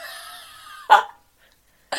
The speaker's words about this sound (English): I did this crazy, crazy giant burp